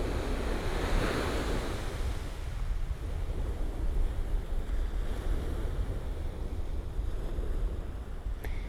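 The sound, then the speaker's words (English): Sea waves breaking on the shore at high tide at Chesil Beach, a steady, loud rush of surf with wind buffeting throughout, no distinct individual crashes and no voices. “I think the tide is high at the moment. It's, it's either still coming in or just going out because I don't often see it come up this high.”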